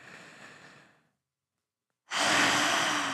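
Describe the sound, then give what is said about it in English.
A deep breath taken during a guided grounding exercise: a soft, airy breath fades away, a second of silence follows, then a loud, rushing inhale starts abruptly and holds steady to the end. “let's take a nice deep breath together and everyone listening can do it with us. Okay, inhale.”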